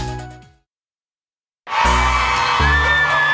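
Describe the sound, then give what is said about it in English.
A crowd gathered on an outdoor plaza on a Friday morning breaks into loud cheering and whooping. A fading sound and a short silence come before the sustained roar of voices. “We're going to give a lot of camera time to our crowd rolling on the plaza.”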